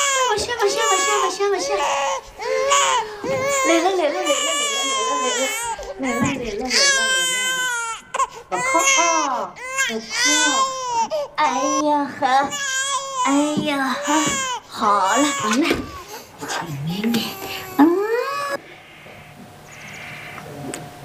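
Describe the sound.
A seven-month-old baby crying in loud, continuous, wavering wails with short breaks for breath, while the mother talks soothingly over the crying throughout.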